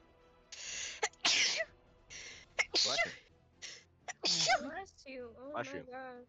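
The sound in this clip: Rapid machine-gun run of many sneezes in quick succession: loud, sharp, breathy bursts with short gaps between them. A brief voiced sound follows near the end.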